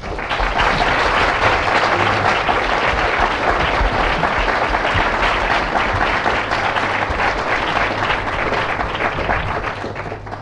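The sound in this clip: An audience applauds to welcome a lecturer at an evening criminal-law lecture, with dense, steady clapping that lasts about ten seconds and eases slightly at the end.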